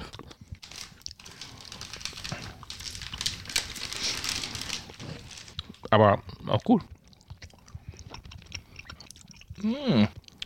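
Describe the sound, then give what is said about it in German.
Chewing on sour cat-shaped gummy candies, apple flavour, with soft moist crunching and crinkling for several seconds, followed by a few brief voiced murmurs. “Vielleicht muss man mehr drauf rumkauen.”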